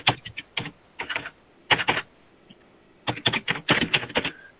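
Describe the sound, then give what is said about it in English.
Fingers type on a computer keyboard in several quick bursts of crisp keystroke clicks. Short silent pauses separate the bursts, and the final flurry is the longest and busiest. “it's funny hearing you typing.”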